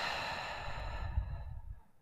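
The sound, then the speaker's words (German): A deep breath out during a guided breathing exercise: one long, soft, airy exhale that thins away and fades to near silence at the end. “Atme mal tief ein. Und aus.”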